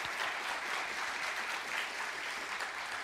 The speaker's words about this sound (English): So give her another warm hand and just say yay.